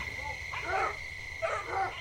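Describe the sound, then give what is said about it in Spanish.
Dogs bark from all sides in two drawn-out, throaty bursts over a steady high background tone. “al quedar libre oyó cómo por todas partes ladraban los perros.”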